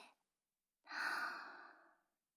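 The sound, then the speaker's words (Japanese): One long, soft, breathy exhale during a guided breathing exercise, with a very brief faint breath just before it. “はーい、吸って、吐いて、吸って、”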